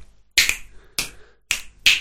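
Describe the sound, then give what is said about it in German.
Finger snapping by one person: four crisp, sharp snaps with uneven spacing, each a bright, quick crack with a short tail, alone with no talking. “Ja, ich hab während dem Studium habe ich das trainiert zu schnippen.”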